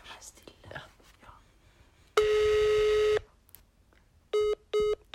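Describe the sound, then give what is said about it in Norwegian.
A telephone ringback tone sounds on a call placed to someone in New York: one long, steady tone, then a few short, clipped beeps. Whispering can be heard faintly before the tone. “Nå ringes det her.”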